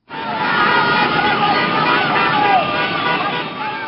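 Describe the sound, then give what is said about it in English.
Dozens of motorbikes and cars carrying flag-waving demonstrators at an opposition protest in Venezuela make a dense, continuous roar. Short horn toots and crowd voices run through it at a steady loud level. “That's the sound of dozens of motorbikes and cars full of demonstrators waving giant flags and banners in support of the opposition leader”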